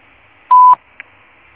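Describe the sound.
A Claro voicemail beep before message recording: one steady mid-pitched tone lasting about a quarter second, followed by a faint click, with no voices.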